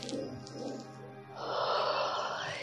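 A deep inhale during a guided breathing meditation: a steady, fairly loud breathy rush of air that swells and holds to the end.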